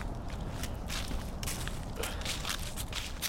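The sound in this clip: Footsteps of people walking in a forest, a continuous run of many crunching steps in an uneven rhythm over a constant background hiss.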